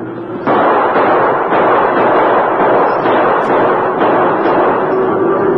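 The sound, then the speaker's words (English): Gunshots fired over a stampeding cattle herd in a Western chase near quicksand, heard as a dense, loud, continuous roar with a few sharper bursts standing out, with no voices. “Keep shooting”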